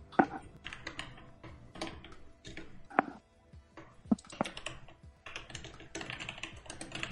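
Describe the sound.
Note-taking on a computer keyboard, with many quiet, irregular key clicks in uneven bursts and short pauses. No talk is heard.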